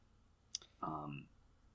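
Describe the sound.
A single sharp click of a computer mouse, brief and distinct, followed shortly by a short voiced sound.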